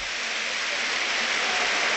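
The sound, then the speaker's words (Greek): Applause from the Trifylia crowd at a basketball game as free throws are awarded in the closing seconds: dense, steady clapping noise that holds at an even level throughout, with no voices standing out. “Χειροκροτεί ο κόσμος του Τριφυλιού.”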